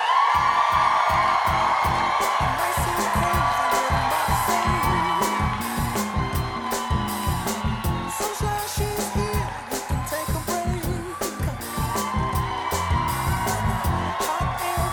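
A crowd at a South Dakota event cheers, whoops and claps to welcome former President Bill Clinton on stage, with loud, continuous applause and rhythmic clapping throughout.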